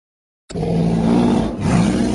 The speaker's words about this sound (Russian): Рык медведя прокатился по лесу, эхом ударяясь о стволы деревьев.